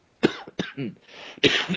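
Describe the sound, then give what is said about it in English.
A person coughs a few times in harsh, breathy bursts separated by short gaps, with rough throat-clearing sounds between them. “sorry, excuse me, the cough that wouldn't die.”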